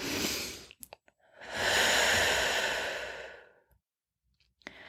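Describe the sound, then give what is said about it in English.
A deep, audible breath with a long, loud sighing exhale of about two seconds in the middle, a shorter breath just before it and a few faint clicks around it. No talking. “let's all take a breath in here.”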